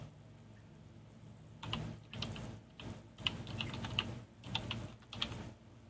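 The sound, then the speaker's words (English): Keys clack on a computer keyboard in irregular bursts of typing. After a quiet start, the crisp, moderately faint clicks come in clusters and short runs over a low background hum. “Sorry about the clacking. Someday I'm going to find a quiet keyboard.”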